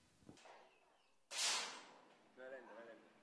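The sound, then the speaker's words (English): One sharp gunshot at a recreational shooting range in a Havana park. It is a hard, loud crack with a short decaying tail, followed by a brief voice. “A recreational shooting range in Havana Park. You've got one shot left.”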